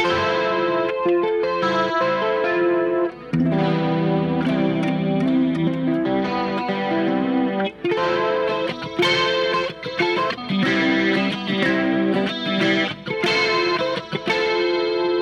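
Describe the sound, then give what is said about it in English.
An electric guitar plays open-chord shapes fretted twelve frets higher through chorus and distortion effects, many bright ringing strummed chords following one another with brief gaps over a continuous, sustained tone. “But with an electric, you can do this fun thing where you fret the open chords, but you just do it 12 frets higher.”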